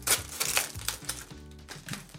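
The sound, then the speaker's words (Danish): A carefully packed item being unwrapped, heard as a series of sharp crinkling and rustling bursts of packaging in an uneven rhythm, fairly faint and on its own. “Åbner op her, de er pakket meget forsigtigt ind. Du skal også pakke det meget forsigtigt op.”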